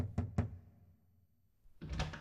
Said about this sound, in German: wagte Passepartout an die Tür des frisch vermählten Ehepaares zu klopfen.